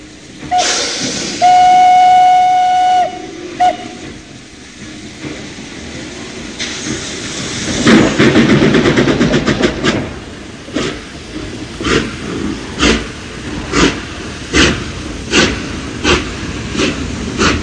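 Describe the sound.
A moving steam train sounds its whistle in a sustained, harmonic tone. Loud rolling rail noise follows, then a regular series of rhythmic chuffs and clatter.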